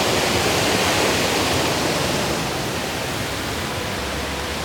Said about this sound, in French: Là, ce que vous entendez, c'est comme une petite écluse qui passe sous un hôtel-restaurant.